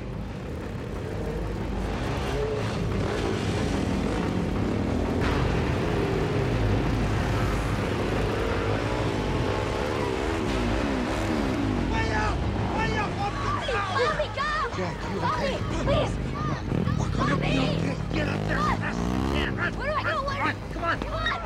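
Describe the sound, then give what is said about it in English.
Engines of an off-road vehicle and motorbikes driving by: a loud, continuous motor roar with shifting revs and whining pitch, indistinct voices mixed in. “A masked raider drives an off-road vehicle.”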